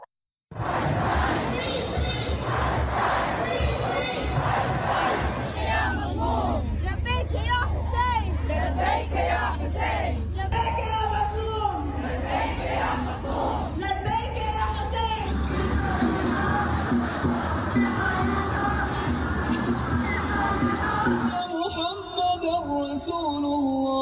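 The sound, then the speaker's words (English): Crowd noise from an anti-Israel protest in London, a dense, loud, continuous wall of many voices shouting and chanting together, with raised calls rising above the mass throughout. “Here's a little montage that we put together for the audience of they've seen what's happening here. But this is some of the anti-Israel protests happening in London”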